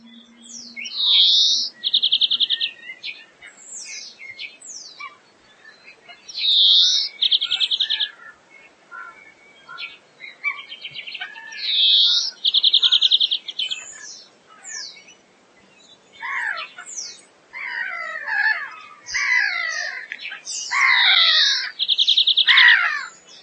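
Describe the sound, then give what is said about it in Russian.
A European greenfinch sings in repeated phrases of twittering notes and rapid trills, separated by short pauses, growing busier toward the end. “Зеленушка.”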